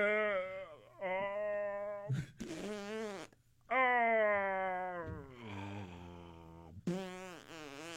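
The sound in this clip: A voice imitates farts with several long, drawn-out, groaning blown sounds of steady low pitch. They come in separate stretches with short breaks between them, and a brief sputtering burst falls in the middle.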